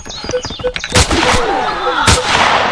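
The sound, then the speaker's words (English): Sniper rifle fire in a video game: a few loud, sharp gunshot cracks with booming tails, set among busy game effects and short electronic tones. “Enemy fire. Sniper rifle.”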